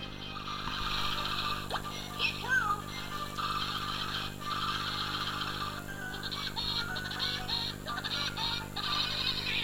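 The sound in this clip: A bird's laugh-like call, with rapid, harsh honking notes repeated in a few bursts over a steady low hum.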